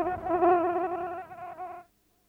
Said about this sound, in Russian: Да черт подери эту муху. Ну, смотрите, опять.